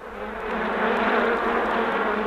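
Bees buzz in a steady, dense, unbroken drone that holds at an even loudness for the whole two seconds, with no voices.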